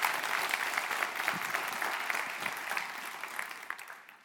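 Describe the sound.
Audience applause welcoming a guest pastor as a speaker: dense, steady clapping from many hands that holds for about four seconds and eases off slightly toward the end.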